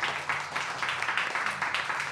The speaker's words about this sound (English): One more round of applause for our panelists.